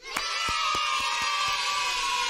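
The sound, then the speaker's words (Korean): A crowd gives a short burst of applause and cheering after prize winners are announced, with lively whoops and shouts over a few sharp handclaps. “박수!”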